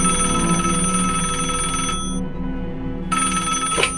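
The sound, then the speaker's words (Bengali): A landline telephone rings with a shrill, steady electronic bell tone that continues throughout, loud and unbroken, with no voices. “ঠিক সে সময় তার ল্যান্ডলাইনটা বেজে উঠল।”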